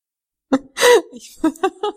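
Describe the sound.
Sneezing and coughing from a woman with hay fever: a sharp burst, then one loud, breathy sneeze, followed by a few short, softer coughs and throat sounds.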